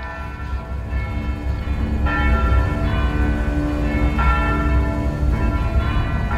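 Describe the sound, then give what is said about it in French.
Church bells ring in full peal from the convent of Santa Maria in Guernica, sounding an air-raid alarm in April 1937. A dense, continuous, loud clangor of overlapping bell tones sustains throughout, with no voices. “lorsque les cloches se mettent à sonner à toute volée.”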